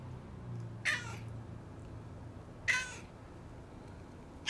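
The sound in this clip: A cat vocalizes with three short, high-pitched, gargling meows. He strains so high that each call cracks and can't be sustained. The meows are spaced by quiet gaps over a low background hum.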